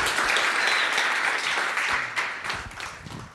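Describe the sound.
Applause from a church audience welcoming a guest speaker: many hands clapping in a dense, steady wash that holds strong, then thins slightly toward the end.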